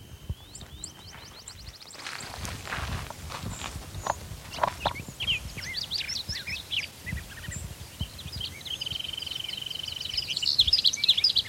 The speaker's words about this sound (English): It's actually a different bird. I think that's the one.